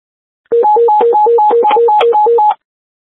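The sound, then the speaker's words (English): Mayday alarm tones from a car control system under test: a rapid, even alternation between a low and a higher electronic tone, repeating steadily for about two seconds before cutting off cleanly. “Car control testing mayday tones.”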